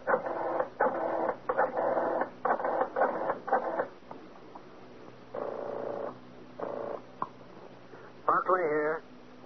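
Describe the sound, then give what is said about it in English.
A telephone number is dialed as a series of mechanical, ratcheting whirrs of varying length, with short gaps between them. “Better yet, I'll dial and have him speak with you.”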